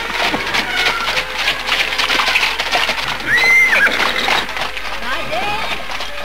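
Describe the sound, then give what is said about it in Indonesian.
A horse pulling a cart whinnies briefly with a high, wavering cry partway through, heard among scattered noises and under a talking voice. “tiba-tiba melintaslah sebuah gerobak kereta yang ditarik seekor kuda.”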